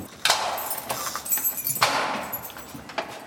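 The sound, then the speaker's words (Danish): A heavy prison cell door is handled and opened, with metallic clanks and rattling over a continuous scraping rumble. A loud clunk comes near the start, another follows midway, and smaller knocks come after. “En tung dør. En tung dør, ja.”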